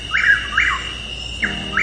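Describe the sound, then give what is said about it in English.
Chuck-will's-widow bird call: clear whistled phrases of brief mid-pitched notes, two close together, then a pause, then two more, rising above a quiet background. “That's the call of Chuck Will's widow.”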